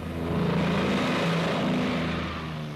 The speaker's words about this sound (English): Bases timed to the escort schedule, the P-38s get underway.